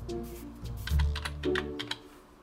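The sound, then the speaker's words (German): A quick run of many light clicks comes from someone typing a search word on a computer keyboard. The keystrokes are uneven and there is no talk. “Ich kann auch direkt hier oben eingeben, was ich dann suche. Zum Beispiel mit Suchergebnis, zum Beispiel, sagen wir mal jetzt, Reinigung.”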